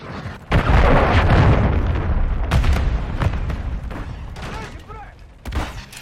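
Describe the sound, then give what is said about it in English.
A cruise missile strike in a military shooter video game sets off a loud explosion about half a second in. A long roaring rumble follows and slowly fades, broken by a few sharper bursts. “Friendly cruise missile approaching target.”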